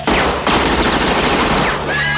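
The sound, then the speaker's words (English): Gunshot fired by accident as a dog runs at the shooter: a sudden loud, sharp blast opens, followed by a second burst and a sustained, dense, crackling roar that stays loud to the end. “He shoots accidentally.”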